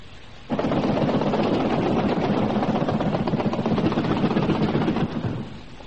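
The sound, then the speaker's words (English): Guns opening fire on a target, a sudden burst of rapid, continuous gunfire that starts abruptly after a quiet moment, holds as a dense, loud roar for several seconds and then cuts off. “There she is! Open fire!”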